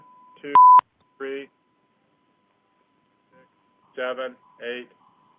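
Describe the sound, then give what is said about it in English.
Telephone-like beeping on a phone line: a steady mid-pitched tone sounds at the start and ends in a brief, louder beep. A few short, faint voice-like fragments follow between stretches of silence. “I just hear some beeping, as if there's a caller or something, maybe.”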